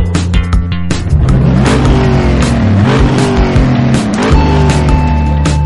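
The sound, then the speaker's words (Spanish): IndyCar race car engines rev and accelerate without a break. Overlapping high-pitched engine notes climb and drop as cars roar past, loud and dense throughout. “Drivers, start your engines.”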